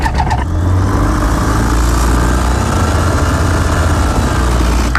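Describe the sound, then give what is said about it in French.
A light aircraft engine throttles up for takeoff, a loud steady drone with a deep low hum that holds for the whole stretch, with no talk. “On est en train de mettre les gaz sur l'axe de montée initiale 18.”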